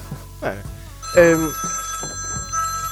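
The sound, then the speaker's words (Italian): A phone ringing during a live conversation. Thin, high, sustained ringtone notes start partway through and continue under people talking. “Questo era il mio telefono che squillava, non so chi mi chiama, però vabbè.”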